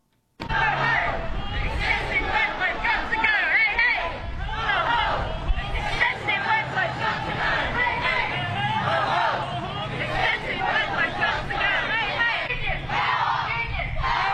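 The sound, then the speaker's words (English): Crowd hubbub from striking state school teachers rallying on Langtree Avenue: a dense, steady babble of many overlapping voices and chatter that continues without a break. “Some of the sounds that you might have heard if you were along Langtree Avenue yesterday when state school teachers went on strike for the second time this year after rejecting a wage deal from the Victorian government.”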